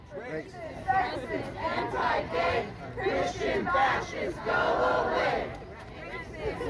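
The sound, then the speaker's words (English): Abortion-rights activists chant in unison at a protest in Texas. Shouted phrases repeat in rhythmic bursts over a low crowd murmur, fairly faint overall. “What you just heard were the voices of activists here in Texas supporting their right to abortion.”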